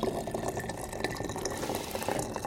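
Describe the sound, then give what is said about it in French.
Water pours into a herbal decoction being prepared, a soft, continuous splashing trickle that stays fairly quiet throughout. “je vais mettre l'eau dans la décoction que je vous prépare”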